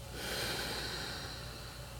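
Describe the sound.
A long, steady exhale during a guided Reiki meditation: a soft, breathy rush of air that holds at an even level for the whole moment, with no voices.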